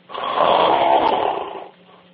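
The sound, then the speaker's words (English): Rough breathing heard over an unmuted phone line: one loud, buzzy, snore-like rush of air lasting about one and a half seconds, then dropping to a faint low hum. “people have to mute their phone because we could hear you on the other side, and especially this is your breathing and everything else”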